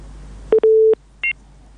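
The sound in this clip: Electronic telephone line tones as a call disconnects: a short beep, then a longer steady tone at the same pitch, followed by a brief higher-pitched double-toned beep, alone over faint hiss.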